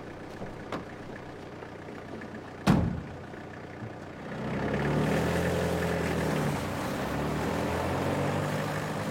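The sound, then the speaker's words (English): A van's engine pulls away at night: a sharp thud, then a steady, loud engine rumble rises and holds to the end. “She watches the van drive away into the night.”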